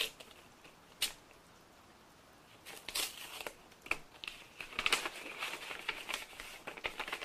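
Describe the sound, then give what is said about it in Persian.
Paper crinkles and rustles as a letter is picked up and quickly opened. The sound is faint and irregular, with a few sharp crackles and a busier patch of rustling toward the end. “بابک بدون گفتن کلامی به طرف میز می رود، نامه ای را بر می دارد و به سرعت باز می کند و می خواند.”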